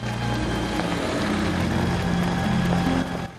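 A car engine drones steadily as the vehicle drives off, a low, continuous rumble that holds level for about three seconds before dropping away at the end.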